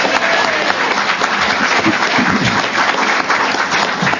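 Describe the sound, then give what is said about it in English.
Audience applause at a convention for a staff member's hard work: dense, steady clapping that stays loud and even from start to finish. “Let's hear it for all the hard work that she's done, Lily McRae.”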